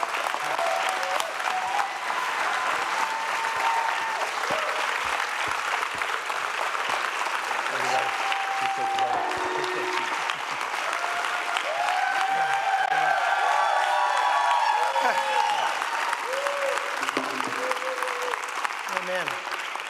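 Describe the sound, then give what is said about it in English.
A church audience applauds and cheers as a guest preacher is welcomed at an evening service: sustained loud clapping with scattered shouts and voices calling out throughout. “I want you to stand, and can we give a big Bethesda welcome to Curry Blake as he comes to share God's word with us.”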